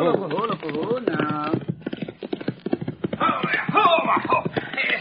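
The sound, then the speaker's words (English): Horses' hooves clip-clop in a quick, steady rhythm as riders approach, thin and muffled, partly under a voice. “Rider come this way, Cisco. Oh, see. Far behind him, two more riders. You come right this way, too.”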